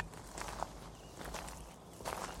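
Footsteps of people walking along a hiking trail, a steady run of soft, crunching steps with a loose rhythm, heard faintly and alone.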